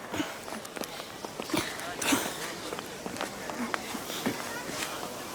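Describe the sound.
Footsteps of a few people walking together near a bratwurst stand, a steady run of soft, evenly spaced steps at a moderate level against a busy background.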